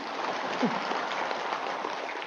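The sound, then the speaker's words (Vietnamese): Applause from a listening audience after a call for a round of clapping, a steady, somewhat muffled patter of many hands at an even level for just over two seconds. “Một tràng vỗ tay đi.”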